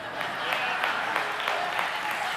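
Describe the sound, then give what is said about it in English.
Steady, dense applause from a church audience. The sound is an even wash of many hands clapping at once and holds at a constant level throughout. “Your applause have already showed me that the title has done its job.”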